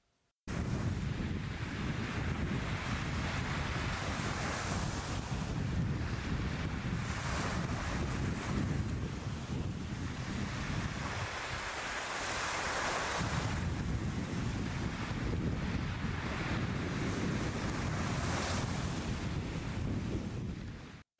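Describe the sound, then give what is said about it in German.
Sea waves wash onto a beach shore in a continuous, full-bodied roar with slow surges, mixed with steady wind buffeting, and no voices. “Plötzlich liegt es vor ihnen, das blaue Meer und zugleich das bunte Meer tausender Sonnenanbeter.”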